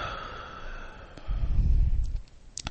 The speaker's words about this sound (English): So how we do it is we take that deep breath in and release.